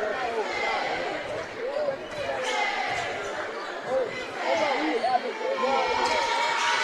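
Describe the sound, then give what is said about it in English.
On a basketball free throw, the ball bounces around the rim and rolls in with a few light knocks, all under a commentator's running talk. “Second free throw bounces around and rolls in. He used all the rim on that one.”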